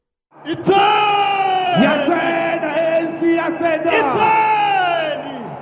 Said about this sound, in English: On Saturday, it held an election rally at a Soweto stadium. Thousands of supporters cheered.